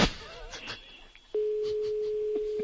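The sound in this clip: An outgoing telephone call ringing: after a moment of faint talk, a steady mid-pitched tone starts and holds unbroken to the end.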